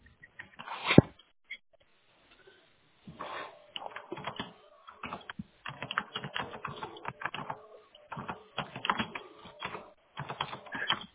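Computer keyboard typing as someone writes down appointment details for draining plumbing risers: irregular bursts of quick, light keystrokes with short pauses between runs, fairly faint and with no talk over it.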